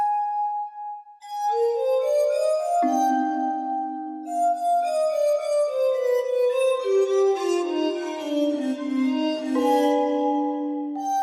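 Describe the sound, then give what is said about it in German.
A computer-generated glass-harmonica sound plays an AI continuation of Beethoven: clear, sustained bell-like tones that open with a lone note and then form a gently flowing melody of overlapping, ringing notes. “Und das Ganze ist jetzt mal so generiert worden, dass das klingt wie eine Glasharmonika. Das ist also ein Computerklang, den Sie hören.”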